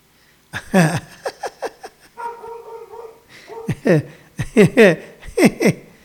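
Dogs barking in a run of sharp, short bursts, many in quick succession with uneven spacing, loud and without talk.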